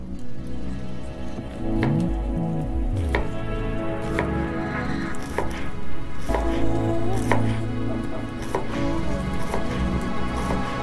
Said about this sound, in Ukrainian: Також молоду цибулю дрібно порізати.